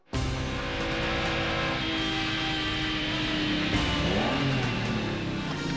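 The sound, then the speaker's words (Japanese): The engine of a spy car, secretly developed by a foreign intelligence agency, drones steadily and loudly, a dense mechanical hum that holds for several seconds with a brief shift in tone partway through. “私の愛車はナムコゴーだ。某国の情報部で秘密裏に開発されたものを悪ルートに仕入れた。”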